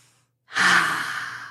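A long, deep breath drawn in through an open mouth. It is breathy and airy, starts abruptly after a brief silence and fades gradually while being held.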